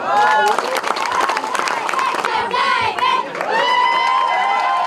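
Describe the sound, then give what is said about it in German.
Children shout and chant together at a protest march joined by several hundred citizens, their high voices loud over crowd noise and scattered clapping. “Google Hör muss bleiben, rufen Kinder bei einem Protestmarsch, an dem mehrere hundert Bürger teilnehmen.”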